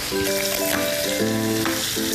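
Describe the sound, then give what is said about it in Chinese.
Bamboo shoots sizzle as they are stir-fried with garlic in a wok, a steady, dense crackling hiss that holds at an even level throughout without pause. “炒到这个蒜香味出来的时候，我们就把竹笋倒进去。”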